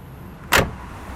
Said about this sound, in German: Es ist kurz nach 8, Stoßzeit, ein Auto nach dem anderen.